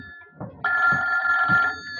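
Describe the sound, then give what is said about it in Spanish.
A telephone rings with one long, steady electronic trill that stands alone and loud before cutting off. “¡Ay, el teléfono! Espero que no sea el tal doctor Bailey con sus locuras.”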